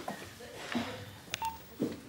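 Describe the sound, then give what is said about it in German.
Faint telephone keypad tones sound while dialing, several short beeps spaced irregularly over a low, muffled background hum, quiet and without clear ringing. “Klingelt, aber es geht niemand ran.”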